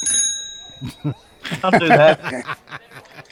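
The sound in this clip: A bicycle bell rings out with a bright, lingering metallic tone, followed by chuckling and people talking.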